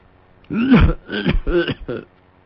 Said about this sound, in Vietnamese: Nói tới đó đột nhiên ho sặc sụa.